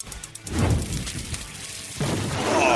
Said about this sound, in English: I don't think the goal is for the hot stove to actually blow up. No. We need it to blow up. But it's for like effect.